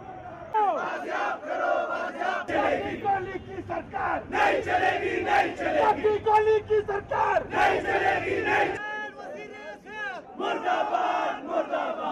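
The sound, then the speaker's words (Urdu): A crowd chants slogans at a doctors' protest rally in Quetta over a kidnapped colleague. Loud massed voices shout repeated rhythmic phrases, ease briefly near the end, then pick up again. “ان کی بازیابی اور اپنے دیگر مطالبات کو منوانے کے لیے ڈاکٹروں نے ایک احتجاجی ریلی نکالی، جس کے دوران یہ نعرے لگتے رہے۔”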